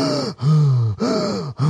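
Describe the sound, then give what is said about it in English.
A person demonstrating deep breathing makes a series of loud, voiced breaths with a sighing, groaning tone, each one separated by a short pause. “And eventually everybody wants to breathe, right? It doesn't matter how much of a conservative dickbag you are. You like doing this.”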